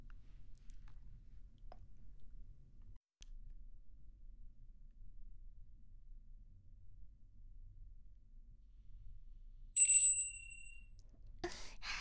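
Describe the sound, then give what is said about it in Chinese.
A small bell placed on a table is rung once after a long near-silence. It gives a bright metallic ding that fades over about a second, followed by a short burst of rustling noise. “有需要请摇响桌上放置的魔法铃铛，呼叫您的专属女仆哦。”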